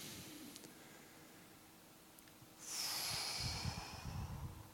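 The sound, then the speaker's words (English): A single slow, deep breath taken during a guided breathing exercise, faint and airy, rising suddenly out of a quiet hiss and holding steady to the end with no talking. “Breathe with me again.”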